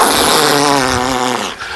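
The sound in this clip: A fart sound effect: one loud, buzzy, raspy blast with a low droning pitch, held for over a second before trailing off.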